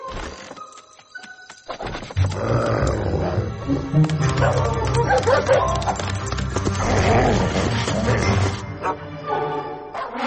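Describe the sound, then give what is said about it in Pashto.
A dog barks at night in a neighbour's yard, with repeated barks set against a dense, continuous mix of other sounds and possible voices that runs through the whole stretch. “سمیر په خوب ویده و چې د سپي د غپا آواز یې واورېد.”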